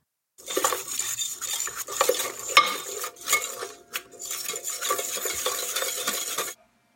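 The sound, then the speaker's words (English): Whisking sugar, melted butter, yogurt and egg into mashed bananas in a bowl for muffin batter: a rapid, steady scraping and clinking of a whisk against the bowl that runs for about six seconds with brief dips, no voices. “So add the sugar, melted butter, yogurt, and egg in with each bowl of bananas. And go ahead and whisk those together until they're all combined.”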